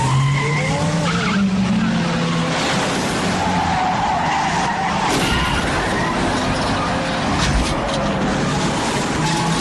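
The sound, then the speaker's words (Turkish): Tyres screech continuously as a car accelerates hard and skids through turns in a chase, a loud, unbroken squeal mixed with engine roar. “Bas şu gaza. Biraz sabret, gazlıyorum işte.”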